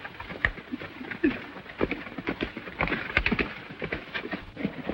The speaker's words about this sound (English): Zanti and his men ride off.